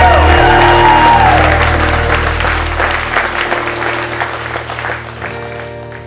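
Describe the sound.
An audience applauds and cheers in a loud burst of clapping with a rising-falling whistle near the start, then the applause gradually fades.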